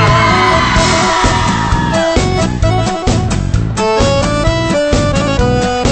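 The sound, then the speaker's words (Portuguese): Women in a live audience shouting and whooping at a sung folk verse duel, loud cheering mixed with accordion and guitar music and a steady rhythmic beat. “para a gaita pra escutar o grito da mulherada.”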